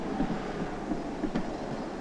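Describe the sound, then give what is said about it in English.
A number 11 tram in Dresden pulls in at a stop, a steady low rumble with faint rolling noise and a few soft knocks and thuds throughout. “The tram has just arrived at a stop. Some people are getting off.”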